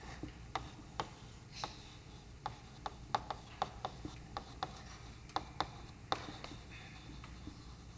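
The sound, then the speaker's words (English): Writing notes by hand: faint, scratchy strokes and many light taps at uneven intervals over a low, steady background hiss. “So we'll write this down in general.”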